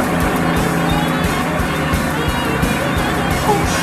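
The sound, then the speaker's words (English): Engine and road noise from a Mercury car driving on a road, a loud, steady roar with a low rumble that holds throughout without a clear change. “Why don't you let that car behind you pass us? We're in no hurry. I'm always in a hurry, honey. Always in a hurry. Watch me make this baby walk away from him.”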